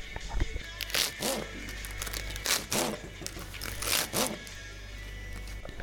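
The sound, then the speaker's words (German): A knife slices a leek into small rings, giving crisp, crunchy cuts that recur in a series over a low, steady hum. “Nachdem wir jetzt unsere Pilze geschnitten haben, schneiden wir jetzt auch den Lauch in kleine Ringchen.”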